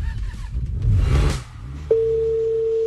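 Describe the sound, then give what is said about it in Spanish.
Telephone tone as a call is placed during a quiz game: a stretch of broad, rustling noise gives way to a steady, unwavering tone held on one pitch to the end. “estamos marcando.”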